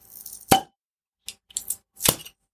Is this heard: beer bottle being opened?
yes

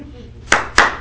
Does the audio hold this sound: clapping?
yes

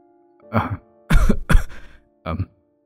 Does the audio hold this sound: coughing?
yes

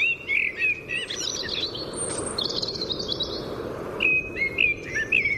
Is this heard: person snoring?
no

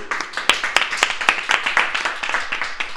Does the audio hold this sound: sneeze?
no

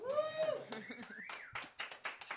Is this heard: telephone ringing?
no

